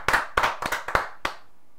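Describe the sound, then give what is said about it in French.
Hand clapping during a church service: a few sharp, bright claps in a loose, uneven rhythm, fairly loud and alone, fading out after the last clap. “Acclamons pour le nom du Seigneur Jésus.”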